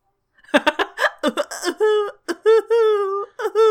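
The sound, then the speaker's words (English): A female voice actress makes exaggerated fake sobbing noises for a cartoon character who runs off crying. Choppy, hiccuping sobs lead into long, wavering, high wails, all voiced in imitation of crying. “she yells at Stella and then runs off crying, and her Cinnaloom voice actress does the weirdest fake sob noises.”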